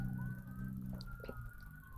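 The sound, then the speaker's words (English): Emergency vehicle siren outside: a faint, thin, steady wailing tone holds through the whole stretch above a low background rumble. “I apologize for the sirens. It's might be a fire somewhere.”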